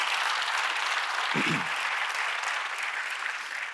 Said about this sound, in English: I appreciate the applause and support of that